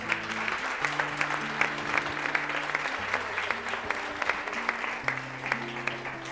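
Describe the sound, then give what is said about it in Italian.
Audience applause, a steady patter of many hands clapping at moderate volume, with low sustained keyboard notes shifting underneath throughout. “Un applauso.”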